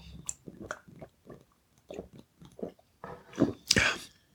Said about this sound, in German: Ich habe einen Schluck zwischendurch.